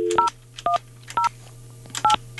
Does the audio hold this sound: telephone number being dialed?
yes